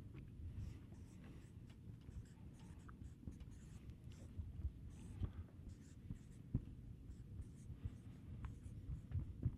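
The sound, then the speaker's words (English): A pen drawing stick figures on paper, making faint, continuous scratchy strokes with a soft, uneven rhythm throughout. “Here's one of the reasons. I'll draw another stick man.”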